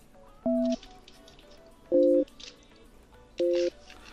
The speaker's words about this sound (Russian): Так, набираю.